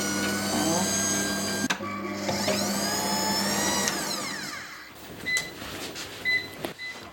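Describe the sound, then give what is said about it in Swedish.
Kitchen machine mashing potatoes with milk and butter: a steady motor whir with sustained tones runs for several seconds with a brief break partway, then gives way to quieter, irregular knocks and clicks. “Och så först finfördelar du potatisen och sen häller du i mjölk och smör i maskinen.”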